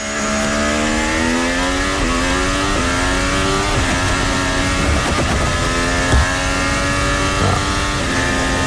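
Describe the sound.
A racing car's engine revs loudly and without a break, climbing in pitch through several quick gear shifts and dropping back after each. No one talks.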